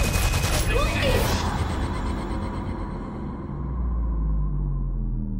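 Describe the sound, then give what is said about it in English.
Gunfire in a club from a film trailer: a dense burst of rapid shots crackles in the first second, then gives way to a low, rumbling wash of noise. “So that's Gina Rodriguez in a club being shot up. Holy shit.”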